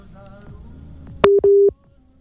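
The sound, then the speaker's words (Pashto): Busy tone on a telephone line that has been cut off: two steady, mid-pitched electronic beeps, the second longer than the first, sounding clearly after a quiet stretch and followed by near silence. “او تاسو معلومیږي چې د دې د ټلیفون لاین کټ شو”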